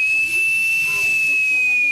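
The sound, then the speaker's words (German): A steady high whistle sounds over a constant hiss from the emergency warning whistle of a breathing apparatus air cylinder filled to 330 bar, tested by THW members. The tone holds unbroken and loud throughout. “Ich drehe einmal die Flasche auf, dann kann ich gucken, wie viel hat die denn drauf. 330 Bar, perfekt. Dann muss man noch testen, ob die Notpfeife geht.”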